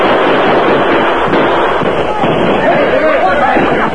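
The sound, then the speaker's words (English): Carbine gunfire in a radio drama night battle, with soldiers firing at outlaws on a hillside. A dense crackle of many rapid shots runs throughout, mixed with shouting voices. “Alert soldiers responded quickly, firing their hard-hitting carbines at the flashes of the outlaws' guns.”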